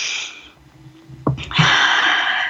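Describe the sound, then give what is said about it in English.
A deep breath taken during a guided reflective exercise in a virtual group session: a brief sharp intake, then a long, steady, airy rush of breath lasting about a second, with no talk. “One more deep breath.”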